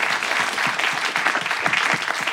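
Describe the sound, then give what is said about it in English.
Audience applause at a live show, given for the venue's team: dense, steady clapping from many hands that holds an even loudness throughout, with no voices over it. “Let's give the whole team at Dynasty Typewriter a round of applause.”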